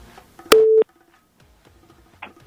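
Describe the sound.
A telephone line tone sounds as the next caller is connected to a radio call-in show. It is a single short, steady electronic beep, followed by faint low clicks.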